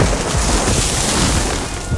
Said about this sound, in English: That tree in your yard, one good monsoon gust, and it's your new roommate.